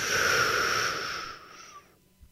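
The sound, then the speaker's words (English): A long, deep breath in taken during a guided relaxation exercise, a loud, airy rush of about two seconds that gradually tapers off and ends. It is heard alone, without talk. “I want you to take the deepest breath you know how to take. You ready? One, two, three. Breathe in.”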